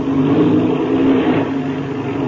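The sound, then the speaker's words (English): A light airplane's engine running on the ground to move across a field: a loud, steady, mid-pitched drone that holds nearly the same level throughout, with no talk. “Oh, you're not even going to be able to get there without using your engine. Yes, I'll have to give her a burst or two, all right?”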